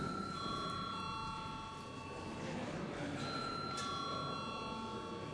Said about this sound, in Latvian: Lūdzu zvanu.